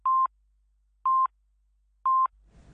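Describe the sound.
Radio time-signal pips before the half-hour news on a Hong Kong station: three evenly spaced, steady mid-pitched beeps about a second apart, each short and clean.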